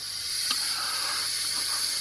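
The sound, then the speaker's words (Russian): Steady hiss of chlorine gas escaping overhead from a cylinder: a continuous, bright, airy rush that holds at an even level from start to finish without breaks. “Шипение наверху. Будем ждать. Затихает”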